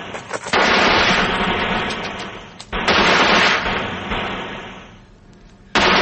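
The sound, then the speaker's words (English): Heavy gunfire laid down as covering fire in a gully near a border: a loud, dense, continuous roar of shots lasting several seconds, easing and fading slightly, then a sharp new burst at the end. “Now, give me some covering fire.”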